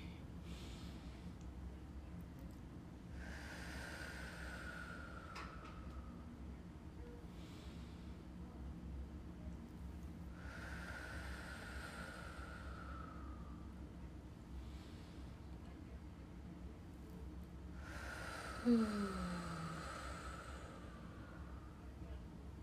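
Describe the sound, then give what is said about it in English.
Three slow, deep breaths taken at the start of a prayer session. Each is a long, soft airy rush with a slight whistling edge, faint over a constant low background hum. “Let's take some deep breaths first.”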